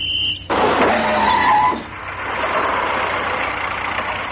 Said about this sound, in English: Don't believe it. They're all riding round in taxis.